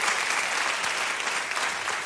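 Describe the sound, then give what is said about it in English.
Audience applause follows a guitar-and-vocal performance of an old song, a loud, dense wash of many hands clapping that holds steady throughout. “And once again, let's give Cash a big round of applause.”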